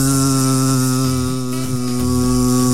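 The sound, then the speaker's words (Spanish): Loud, steady buzzing of a mosquito, a continuous droning tone rich in overtones that holds at an even level throughout, with no talking. “cuando nos pica un mosquito que escuchamos el”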